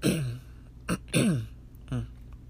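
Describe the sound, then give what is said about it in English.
Throat clearing in a few rough, rasping bursts separated by short pauses, each a guttural scrape. No words are spoken. “Sorry. Had to clear my throat.”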